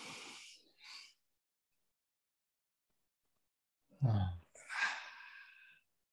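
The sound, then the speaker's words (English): People taking a deep breath together: a short, breathy burst, then a long silence, then a louder airy inhale and a sighing exhale. “Everybody take a deep breath now.”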